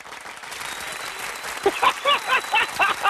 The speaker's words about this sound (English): When it's showtime, baby, you're going to get a round of applause over here because you are that special to me.